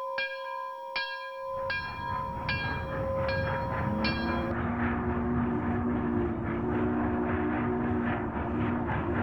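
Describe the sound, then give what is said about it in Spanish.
A departing train: a steady rolling rumble runs throughout, opened by a series of bright, ringing bell chimes, with a low sustained horn-like tone joining the rumble later. “Entonces, si ya están listos, nos vamos, que el tren va a comenzar su travesía musical.”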